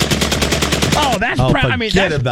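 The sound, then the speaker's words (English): Rapid gunfire from a semi-automatic gun with a forced reset trigger: a fast, steady string of loud, evenly spaced shots that stops abruptly partway through, followed by other sounds. “It's a mechanism that forces a trigger to reset this gun. Look at this gun. My lord. Allows for faster follow-up shots in a semi-automatic mode.”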